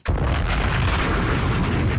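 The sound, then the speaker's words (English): Bombs explode in a loud sound effect, a heavy blast that starts abruptly and turns into a sustained, deep rumbling roar. “Bombs!”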